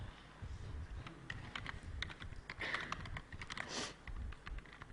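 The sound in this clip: Typing on a computer keyboard while writing code: rapid, irregular clicking keystrokes in uneven bursts, fairly quiet, with no voices.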